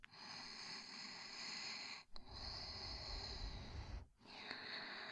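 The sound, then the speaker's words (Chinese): Soft, slow breathing close by: a few long, airy breaths of steady hiss, each roughly two seconds, separated by brief silent pauses, with no talking. “你现在只感觉得到我的呼吸，现在。只听得到我的声音，”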